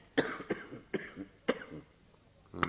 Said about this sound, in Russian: Кашляешь ты все.